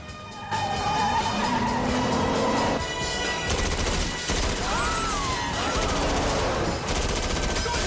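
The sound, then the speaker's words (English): Submachine gun fire rips at a speeding car in rapid, dense bursts, mixed with roaring engine noise and squealing tyres, loud and continuous throughout. “With the speedy corner dangerously close, Peoples lets rip with his submachine gun.”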